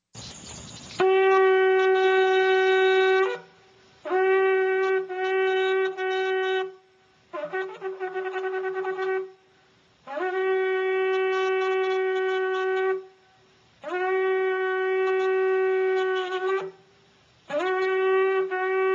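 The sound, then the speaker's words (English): Shofar blasts sound in a synagogue: six sustained, horn-like blasts separated by short pauses, with the middle blast rougher and wavering, and the last one cut off. “All right, the shofar blast.”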